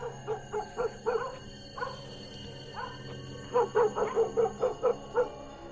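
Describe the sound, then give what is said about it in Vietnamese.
A dog barks toward a gate at night, a long run of sharp, high yipping barks. It falls quiet for a while between bursts, then barks quickly again, over a steady low hum. “Nó liếc tôi, lại gần liếm liếm, rồi lại giấu cái mõm sang bên kia mà sủa.”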